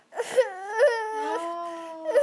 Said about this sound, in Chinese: 你说看这个姐姐一下就哭了。哦，你说看这个姐姐一下就哭了